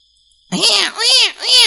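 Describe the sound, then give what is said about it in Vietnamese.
A newborn baby cries in a forest, starting after a brief silence. It gives three loud, high wails, each rising and then falling in pitch, with short breaks between them. “Xa xa lại truyền đến tiếng khóc của trẻ sơ sinh”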